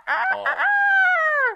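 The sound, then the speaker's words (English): A human voice imitates the crowing alarm of a chicken-shaped clock. It gives one short cock-a-doodle-doo with a choppy start and a long, drawn-out final note that falls slightly in pitch. “my older brother had a chicken clock when I was in the third and fourth grade, and it would go,”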